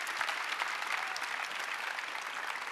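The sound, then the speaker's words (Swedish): Applause from an audience for a children's team, a dense, even wash of clapping held at a fairly soft level throughout. “Så stor applåd till hela barnteamet också. Kan vi inte göra det?”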